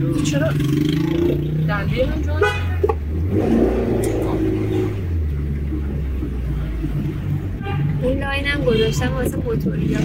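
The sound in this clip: Car engines rumble and rev in a road traffic jam in front of a pizza shop, with low droning tones shifting throughout under people talking.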